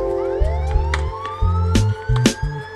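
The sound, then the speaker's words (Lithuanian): Loud emergency sirens wail with a rising tone, joined by sharp percussive hits and a low, pulsing tone beneath. “Garsiai sirenų prasidėjęs rytas”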